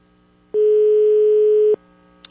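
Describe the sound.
A telephone call goes unanswered, with one steady electronic tone lasting about a second, followed by a brief faint click.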